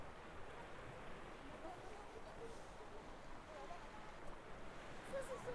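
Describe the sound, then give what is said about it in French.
Tide water laps among rocks along the shore, a faint, continuous wash of rushing water with no distinct breaks. “le clapotis de la marée piégée dans le dédale lithique.”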